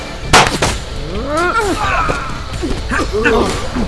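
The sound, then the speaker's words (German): A single sharp, loud gunshot cracks out near the start, followed by raised voices shouting over a low background rumble. “Jetzt erschieß ihn schon.”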